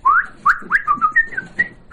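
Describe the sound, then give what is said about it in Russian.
An elderly man whistles a quick run of many short, bright notes, opening with a rising swoop and then hopping between a few pitches in a lively, birdlike pattern, heard alone. “а научите меня так свистеть”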